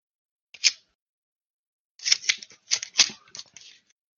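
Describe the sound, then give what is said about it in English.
An envelope is handled on a desk as a stand-in for a knife being drawn. It makes a short papery crinkle, then a run of scraping, rustling crackles in quick bursts. “This is great Foley work. I had an envelope on my desk.”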